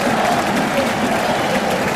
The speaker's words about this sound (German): Ja, ihr hört es vielleicht im Hintergrund. Die Fans sind da, die Fans pushen die Kieler Mannschaft nach vorne und St. Pauli hat jetzt Schwierigkeiten.